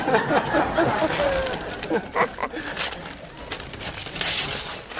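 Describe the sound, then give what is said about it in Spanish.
Gift wrapping paper being torn open, a few sharp bursts of ripping and crinkling set against a background of faint voices. “Ay, qué bonito papel. Ah, pero me voy a romperlo porque si no.”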